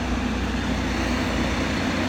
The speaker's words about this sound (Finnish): Kaksi dieselmoottoria